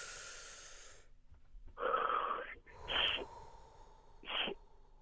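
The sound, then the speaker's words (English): Breathy, wheezy inhalations from a person asked to take a deep breath in: three noisy breath bursts rise out of near silence, each lasting under a second, with no talking. “I just need you to take a deep breath in for me, please. Just a deep one.”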